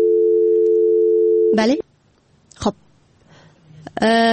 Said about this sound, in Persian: بله، تماس اولی قطع شد